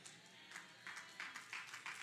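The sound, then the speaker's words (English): Faint, scattered clapping from an audience: a few uneven, sparse claps spread across about two seconds, with no voices over them. “It's a sad clap, but it's true.”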